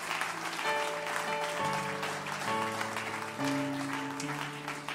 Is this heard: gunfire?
no

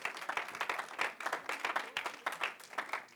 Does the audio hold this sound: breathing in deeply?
no

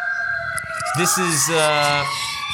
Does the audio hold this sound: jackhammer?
no

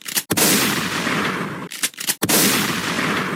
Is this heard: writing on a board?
no

